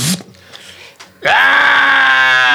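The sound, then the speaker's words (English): A human voice imitates a barrel monster's scream. A few short breathy sounds lead into a loud, raspy screech that holds steady and sustained to the end. “and kind of screams and runs towards Jerix.”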